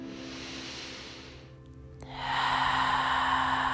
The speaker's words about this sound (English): As we take another big inhale and another big exhale,